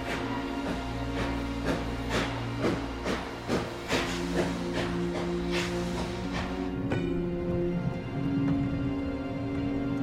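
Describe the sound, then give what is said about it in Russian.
A train moves slowly through a forest as sand is poured under its wheels. Steady, rhythmic chuffs sound over continuous hiss and droning tones, and the beats fade out toward the end, leaving a hissing rumble. “Песок сыпется под колеса поезда. Состав медленно движется по лесу.”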